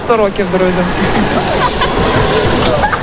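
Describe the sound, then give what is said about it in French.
Water splashes and sloshes in a swimming pool as a boy who has taken off his prosthesis dives in, with loud churning at the start and a steady watery wash under a narrator's voice. “Il plonge, ravi, jusqu'au fond du bassin.”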